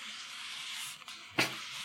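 An apple rubbed between hands makes a faint, steady dry hiss of skin on skin, with one brief louder scuff near the end.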